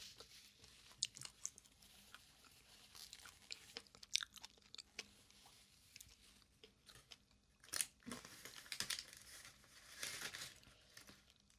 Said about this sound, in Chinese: 让我吃完最后一个鸡腿，我们再看电影票哦。